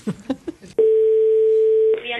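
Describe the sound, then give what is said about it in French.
A telephone line tone while a call is placed: short voice sounds come first, then a steady mid-pitched tone holds for just over a second before it cuts to softer noise. “On appelle quelqu'un, on lui dit allô Michel, oui, passe-moi l'autre con.”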